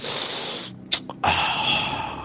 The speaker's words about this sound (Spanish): Esa es la versión destapador. Hasta el sonido de la tapita.